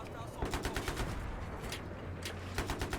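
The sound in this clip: Video game gunfire aimed at a tank: faint, rapid bursts of automatic shots in short rhythmic strings, with a steady low hum underneath.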